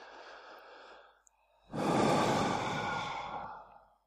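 Deep breaths through an open mouth: a softer airy breath, a short pause, then a longer, louder breathy exhale like a sigh, with no talking.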